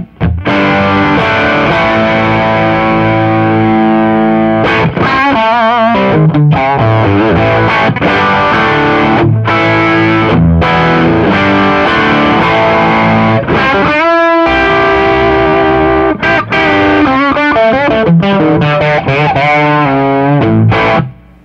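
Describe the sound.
Distorted electric guitar played through a Plexi amp model with a dry rock tone. Chords and riffs ring out loud and continuously for the whole clip.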